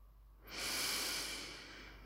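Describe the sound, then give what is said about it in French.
A deep breath is drawn in during a guided breathing exercise: after a brief quiet moment, a single long, airy inhale swells up and then slowly eases off. “Expire par la bouche. Et une dernière fois, inspire.”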